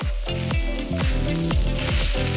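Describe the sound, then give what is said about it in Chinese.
Pig trotters sizzle with fat on a grill at a busy night food stall, a dense, continuous crackling hiss with layered pops and bright spitting, steady and loud, with harmonic tones from nearby stall noise running beneath. “烤架上滋滋冒油的猪蹄”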